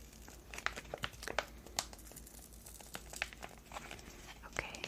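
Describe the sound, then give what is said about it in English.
A skincare product being peeled during a gentle night skincare routine: soft crinkling and tearing with many small crackling ticks, kept quiet throughout. “Alright, so we're going to peel.”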